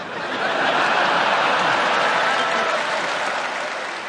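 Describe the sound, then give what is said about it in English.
Audience applause, sustained and dense at a steady loud level for the whole stretch, with a few faint chuckles mixed into the clapping. “A round of applause, they haven't even started.”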